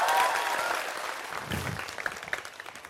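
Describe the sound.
Audience applause at a gathering starts loud and full, then thins into scattered, individual claps as it fades.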